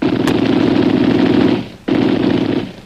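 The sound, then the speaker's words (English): Gunfire aimed over a man's head: a loud, sustained rattling burst with a sharp crack near the start, a brief drop near the end, then the noise resumes. “Wait. I'll fire over his head.”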